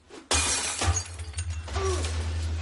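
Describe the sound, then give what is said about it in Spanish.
A ball smashes a glass window pane of a house: one sudden, loud shattering crash, followed by a couple of seconds of tinkling, scattering glass fragments that slowly thin out. “La pelota rompió un cristal de la casa.”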